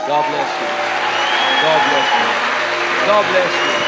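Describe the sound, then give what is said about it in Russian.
Applause in a church as people walk forward, a continuous even patter of clapping with voices heard over it the whole time. “Пожалуйста, пройдите вот за этим человеком и дайте им аплодисмент, как они идут.”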